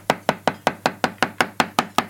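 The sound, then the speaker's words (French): Knife chopping a porcini mushroom into large pieces, eleven crisp, evenly spaced knocks in a quick steady rhythm, each sharp and short, with no talk. “ce n'est pas le cep de nos montagnes. Donc on le coupe en, deux et en, gros morceaux, assez gros.”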